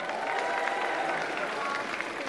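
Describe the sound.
Audience clapping fills the whole short stretch as a steady, dense patter of many hands at an even loudness, without clear breaks or separate claps.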